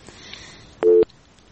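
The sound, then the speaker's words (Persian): A telephone tone sounds on a phone-in line after a dropped call: one steady, mid-pitched beep lasting about a fifth of a second, set against faint background noise. “بله فکر کنم که تماس ما قطع شد.”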